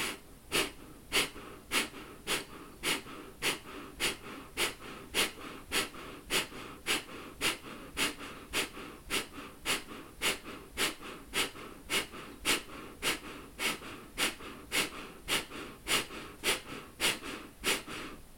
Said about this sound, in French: Inspire aux trois quarts. Expire forcé, doucement, rythme régulier.